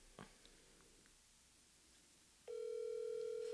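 An outgoing telephone call ringing out: after near silence broken by a faint tap, a steady, loud electronic phone tone switches on abruptly and holds at one even pitch to the end.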